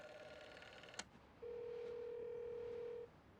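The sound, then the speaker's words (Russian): A wall-mounted telephone handset is lifted with a sharp click, followed by a steady, even dial tone lasting about a second and a half. Faint and alone. “Он прикладывает трубку к уху и набирает номер.”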